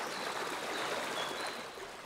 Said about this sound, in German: Der Quellbach stürzt über kleine Wasserfälle zu Tal.